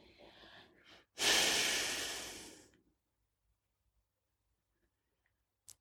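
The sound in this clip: Slow breathing out during a guided Christian prayer: a soft breath comes first, then one long, loud exhale that swells and gradually fades into near silence, ending with a tiny click.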